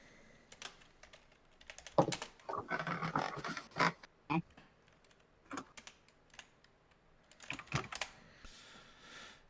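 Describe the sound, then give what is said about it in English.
Fingers type on a computer keyboard to enter a chat command. Irregular clusters of quick, light keystroke clicks are interrupted by brief pauses, and the sound stays fairly faint and unaccompanied by speech. “All you have to do is type.”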